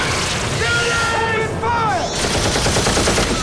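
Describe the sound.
Troops fire guns at an advancing biomechanical warrior: dense, continuous rapid gunfire fills the whole stretch, loud and crackling, with sweeping electronic whines rising and falling through the middle.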